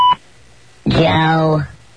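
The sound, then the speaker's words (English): A single short beep tone on a telephone line opens the moment, steady and bright, then cuts off and a voice begins speaking. “please say your name and the state you're calling from at the tone.”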